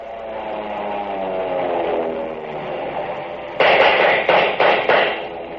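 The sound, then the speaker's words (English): An M1 rifle fires in a quick series of loud, sharp cracks near the end, after several seconds of steady droning tones. “Recognize that sound? If you've ever fired an M1, you know it. That's when your 8 rounds are up and the clip sings out.”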